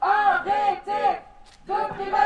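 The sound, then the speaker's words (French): About fifteen students chant together in a protest outside the University of Tours. The rhythmic shouted phrases stop for a short pause, then the chant resumes. “Devant l'université de Tours, une quinzaine d'étudiants manifestent leur opposition au décret Bienvenue en France 2.”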